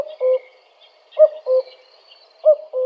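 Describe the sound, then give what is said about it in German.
Mountain cuckoo's first call of summer: soft two-note hoots, each pair a few times over with short pauses between, clear and alone against quiet. “ein tag an dem der bergkuckuck mit seinem ersten ruf den sommer verkündend aus den bergen herübertönt”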